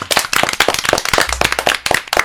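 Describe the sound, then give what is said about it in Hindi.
Applause from a small group of guests in a studio: many sharp, crisp hand claps in quick, uneven succession, loud and steady throughout with no speech. “बार फिर से जोरदार तालियां सबके लिए”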